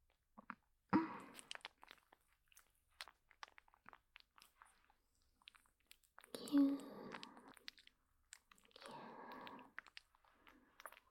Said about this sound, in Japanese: マッサージしていきますね。人肌の温度に温めて、まずは肩から。